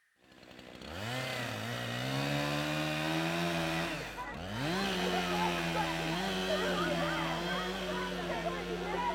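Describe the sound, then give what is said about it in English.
A chainsaw cutting down a tree roars up after a brief quiet start, holds a loud, steady engine drone, dips and revs back up around the middle, then runs evenly to the end. “They're about to cut this one tree down”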